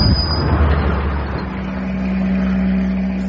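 Engine rumble of a van driving and turning left: a loud, continuous low drone mixed with broad road noise, steady throughout with no clear breaks and no talking.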